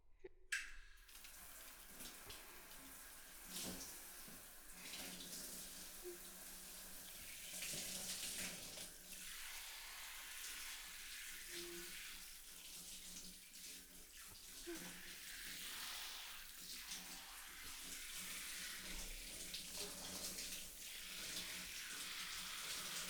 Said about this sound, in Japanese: まずは頭濡らすよ。